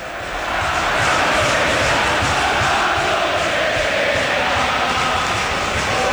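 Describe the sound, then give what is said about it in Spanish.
Football crowd chanting and roaring inside Valencia's Mestalla stadium during a match: a dense, loud, steady wall of many voices with faint rhythmic pulses, continuing unbroken throughout. “Abro el micro, así sí. Suena Mestalla, hacia Corberán.”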